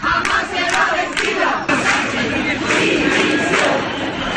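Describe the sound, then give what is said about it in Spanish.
A protest march crowd in Ceuta, Spain, waving Spanish flags, chants slogans calling for the prime minister's resignation. The massed voices are loud and continuous, with a rhythmic, shouted quality throughout. “las imágenes están teñidas de banderas de España y el sonido es el de los cánticos que piden la dimisión de Pedro Sánchez”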